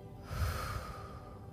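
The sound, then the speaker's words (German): A single deep breath is drawn in through the nose and let out through the mouth, soft and airy, with a slightly snorting nasal quality, heard quietly and alone. “Atme einmal tief durch die Nase ein und durch den Mund wieder aus.”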